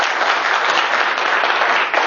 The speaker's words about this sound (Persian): مرسی از شما جواب که یه دست به افتخارشو بزنیم